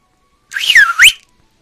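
A person whistles loudly: a single short two-part whistle that dips in pitch and then sweeps sharply upward, heard alone against silence.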